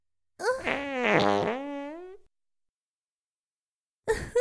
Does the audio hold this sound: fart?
yes